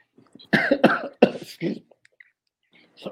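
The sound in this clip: A coughing fit while choking: a quick run of harsh, hacking coughs in bursts, then a short silence and one more cough at the end.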